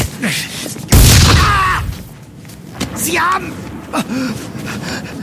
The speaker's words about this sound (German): Sie haben auf mich geschossen.